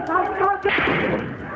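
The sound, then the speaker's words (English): Gunfire from a shooting in which security forces fired on protesters in Homs, Syria: a sharp, noisy burst follows a moment of shouting voices and rings on rough and loud under the commotion. “That sound is from a YouTube video of a shooting.”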